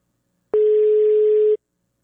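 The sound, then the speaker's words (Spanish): A telephone tone sounds while a call is placed: one clean, steady mid-pitched beep lasting about a second, alone between silences. “te estoy marcando, Jocelyn”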